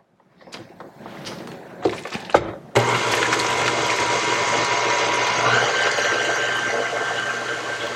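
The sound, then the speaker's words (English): Electric mixer running on low speed, a steady whirring drone that starts abruptly after a few scattered clicks and knocks. It holds evenly, without pause, to the end. “We did like a tablespoon. We're going to do 3 tablespoons. Yeah. Okay. Sorry, Bubby. Okay. Now we're going to mix on low.”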